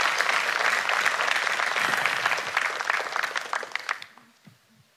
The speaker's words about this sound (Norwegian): Ska vi ge en skicklig applaus?